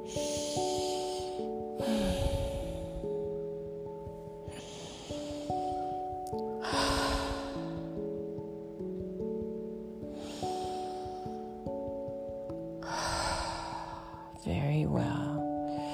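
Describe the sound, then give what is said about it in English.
Slow, deep cleansing breaths during a seated meditation, each pushed out through the mouth as a breathy whoosh, repeat a few times over soft, sustained background music. “You're going to take 3 cleansing breaths with me, would you please?”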